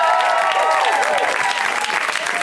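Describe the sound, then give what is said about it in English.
Audience applause at a live show in Seattle: loud, dense clapping with scattered cheers and whoops over it, sustained throughout. “Actually, why don't you keep going for everybody you saw tonight? Let's hear it for everybody.”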